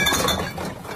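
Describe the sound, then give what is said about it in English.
Coins clinking together as change adds up, heard as a brief burst of bright, overlapping metallic chinks that fade within about a second. “You hear that, Tassie? That's the sound of change adding up.”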